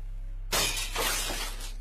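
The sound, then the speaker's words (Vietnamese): A stack of bowls and plates is dropped, striking with one sudden, loud shattering crash, then a sustained rattle of clattering crockery that gradually settles. “chị bỗng nhiên giật mình hét toáng lên, đánh rơi luôn cả chồng bát đĩa loảng xoảng cả lên.”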